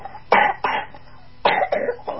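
A child coughs up phlegm in a few harsh, wet, rough coughs that come in two short clusters separated by a brief pause.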